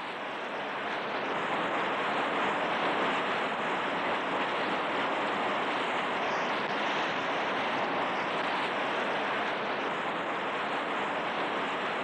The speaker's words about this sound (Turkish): Rüzgar esiyor.